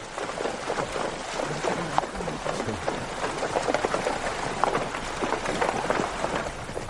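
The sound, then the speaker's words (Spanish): Horses ridden through a river, heard as steady, fairly loud splashing and rushing water noise that continues throughout without a break. “Más tarde montan a caballo junto a una amiga de Judith. Pasean a través de un río observando el hermoso paisaje.”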